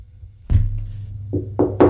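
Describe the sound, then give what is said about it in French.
Knocking on a door: one solid knock, a pause, then three quicker raps, the last ones sharper and louder. “On frappe à la porte.”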